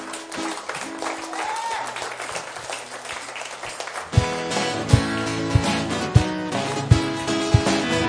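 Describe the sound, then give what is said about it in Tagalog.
An audience claps and applauds for the Lord during a church service, a dense wash of clapping over sustained keyboard tones for about four seconds, before music with a steady, regular beat takes over. “De, palakpakan nga natin si Lord.”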